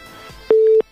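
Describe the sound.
A single steady telephone line tone sounds while a radio call-in caller is being connected. It is one short, mid-pitched beep standing out over a faint background.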